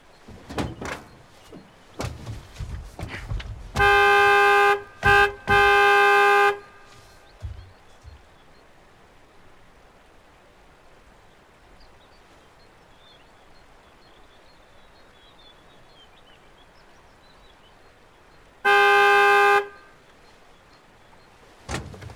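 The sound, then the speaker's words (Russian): A car horn honks three times in quick succession, with short and long blasts at a steady, bright pitch, then sounds once more after a long pause. Soft thumps and rustling fill the quiet gaps. “Ну, погуди еще.”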